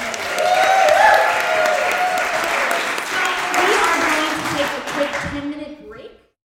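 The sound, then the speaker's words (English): Audience applause for a pair of women, a dense wash of clapping that holds steady for about six seconds before fading out quickly. “if you guys would give these lovely ladies a hand.”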